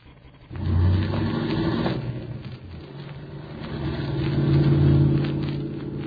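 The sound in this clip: A car engine pulls away as the vehicle drives off, a steady rumbling drone that swells quickly, dips briefly, then grows louder again before easing slightly at the end.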